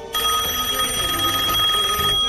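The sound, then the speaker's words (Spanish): Telephone ringing in one continuous bright, steady ring of about two seconds, fairly loud, with no talk over it. “Estoy feliz cuando me llaman por teléfono. Sos feliz, ya nadie habla por teléfono, es verdad. Hola, Susana. Estamos llamando, queremos jugar.”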